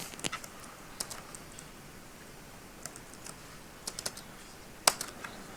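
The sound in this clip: Key clicks from a computer keyboard as a shell command is typed, faint and irregular, with scattered light taps and a few sharper strokes over a steady low hiss.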